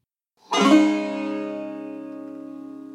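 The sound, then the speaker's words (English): A banjo in sawmill tuning sounds a single strummed chord that rings bright at first, then fades slowly and evenly over a few seconds, alone. “That's the sound of a banjo in what's called sawmill tuning”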